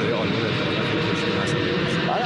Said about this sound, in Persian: طبق معمول اونجا پرواز هواپیما زیاده، کلا این مورد رو در ارتباطات قبلی هم داشتیم.